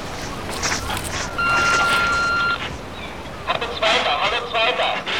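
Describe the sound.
A walkie-talkie radio call signal sounds as a steady electronic beep lasting about a second, set against background noise, with voices talking before and after it.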